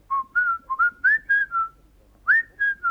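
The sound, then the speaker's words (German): A person whistling: a run of bright, clear notes of mostly steady pitch, two of them sliding quickly upward, then a short pause before three more notes, alone and fairly loud. “Legt ein Buch auf den Schreibtisch und sagt, wenn sie das Buch ansieht, hört sie einen Pfiff.”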